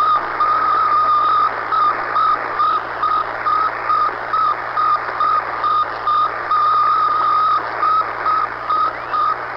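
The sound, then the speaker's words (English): Sputnik satellite's 1957 radio signal: a long run of evenly spaced, steady-pitched beeps pulsing on and off over a constant bed of static hiss, fairly loud and with no voices. “Well, that sound was the sound that everyone heard from a little ball that was going around and around and around.”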